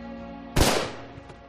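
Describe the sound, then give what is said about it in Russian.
A single pistol gunshot, fired at a person standing at a bridge railing, cracks out as one sharp, loud bang that trails off quickly over a low, steady hum. “Звук выстрела донесся до меня уже после того, как пуля ударила меня в грудь.”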